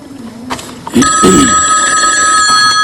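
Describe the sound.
A telephone rings with an incoming call. After a second of faint, mixed sounds, a loud, steady electronic ring sets in and carries on without a break.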